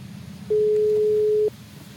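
A telephone call tone sounds while a call is being placed: a single steady electronic beep lasting about one second, set against a low background hum.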